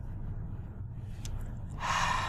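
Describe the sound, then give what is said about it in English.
Breathing into a telephone: a brief, sharp, airy breath near the end rises over a steady low hum on the line. “Do me a favor. Breathe into the phone.”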